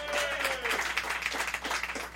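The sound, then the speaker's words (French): Audience applause at a comedy show, brief and moderately loud, with quick, dense clapping rippling unevenly for a couple of seconds. “Une bonne main d'applaudissement, s'il vous plaît!”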